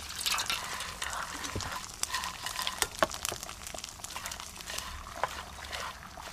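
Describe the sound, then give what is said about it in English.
Rice is stirred in a pan while stock is added a little at a time, giving faint, continuous wet scraping with scattered soft drips and splashes. “Add the liquid a little at a time. Keep stirring and gradually add more stock until the rice is cooked.”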